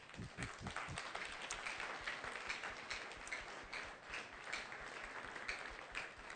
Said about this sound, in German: Это вы что, себе хлопаете, да? Klatscht ihr euch selber?